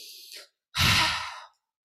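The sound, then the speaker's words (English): A deep breath taken alone: a short, airy inhale, a brief pause, then a louder, longer, breathy exhale that fades out. “I can take a deep breath.”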